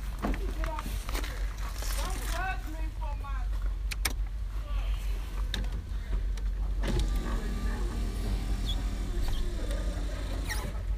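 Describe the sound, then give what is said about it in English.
Car power windows rolled up with a whirring electric-motor hum, while people talk and shuffle nearby. “I got to roll my windows up real quick.”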